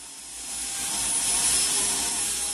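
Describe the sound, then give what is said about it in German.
A micro gas turbine in a combustion laboratory, recorded at its glass combustion chamber, makes rushing compressor-intake flow noise as it accelerates. A thin, high whine sits over the airy roar, and the sound swells through the first half before levelling off. “das ist ein Strömungsgeräusch vom Ansaugen des Verdichters bei der Beschleunigung einer Mikrogasturbine”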